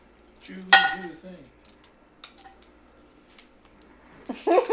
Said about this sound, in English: Stop rolling in the clay pot. Don't roll in the clay pot.